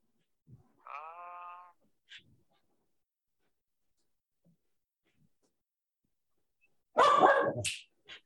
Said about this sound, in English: Sorry, that's my dog.